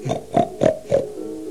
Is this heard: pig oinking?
yes